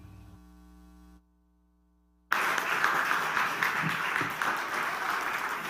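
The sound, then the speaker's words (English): Applause from the audience at a Hope Ottawa church evening service welcoming a speaker. A low electrical hum comes first, then a brief silence, then dense, steady clapping that holds loudly to the end. “put your hands together to give him a warm Hope Ottawa welcome”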